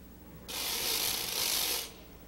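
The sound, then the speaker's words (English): A raganella, a whirled ratchet noisemaker, gives one loud, continuous, dense rattling burst that lasts about one and a half seconds and stands alone. “Then there's the raganella, which is a sort of ratchet, the kind you whirl around when you want to make a real racket on New Year's Eve or on Purim.”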